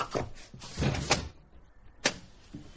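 A door is unlatched and opened with a run of rattling, scraping clunks, a quieter pause, then one sharp knock-like thud and a soft rustle after it.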